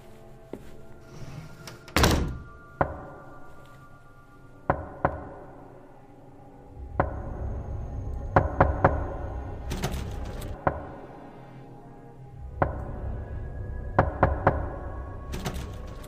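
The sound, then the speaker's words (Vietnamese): Knocks on a door on a still, quiet night: scattered sharp raps at first, then quicker clusters of knocking later on, each hit crisp against a low steady hum. “Đêm hôm ấy tĩnh lặng, tiếng gõ cửa vang lên, nghe nó ghê lắm.”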